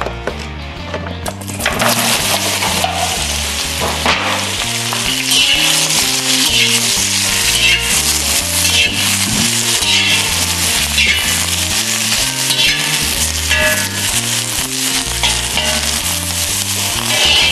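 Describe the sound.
Zucchini and eggplant sizzle loudly in hot oil while a spatula stirs and scrapes the pan in a steady rhythm, with a constant hiss running throughout.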